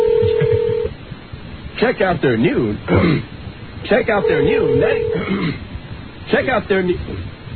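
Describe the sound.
Telephone dialing tones as someone calls for a prank hang-up call: two sustained electronic tone bursts, one at the start and one midway, with people talking in between and over them.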